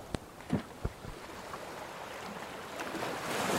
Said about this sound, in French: ils poussent leur pirogue à l'eau noire et s'éloignent du rivage, guidés par la lumière des étoiles et leur connaissance ancestrale de la mer.